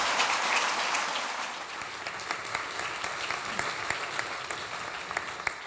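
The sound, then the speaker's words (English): Dense, steady audience applause welcoming a speaker to a talk about the film Denial and the trial it depicts. The clapping stays full and even throughout, thinning only slightly toward the end. “So you're not here to hear me speak, you're here to hear Richard speak, so please put your hands together and welcome him here.”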